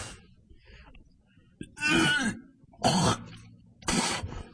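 Harsh choking coughs from a man with a hair caught in his throat: three loud, rasping bursts spaced about a second apart, rising out of a quieter, murmuring background.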